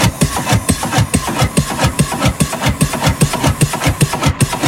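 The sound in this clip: An engine that is slow to catch is being started, chugging in a rapid, even rhythm of loud pulses throughout, with no voices.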